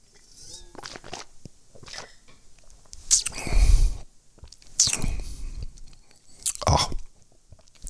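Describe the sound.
Riesling wine being sipped and tasted: a few noisy, airy slurps stand out among quieter wet mouth sounds, smacks and soft clicks.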